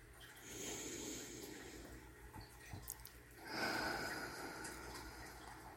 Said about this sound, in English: Hello, if there's anyone listening, let's all take a deep breath.